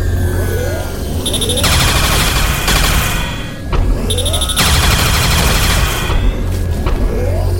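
Rapid gunfire in a video game: loud, dense bursts of quick shots mixed with heavy booming thuds, easing off briefly midway before another fierce volley.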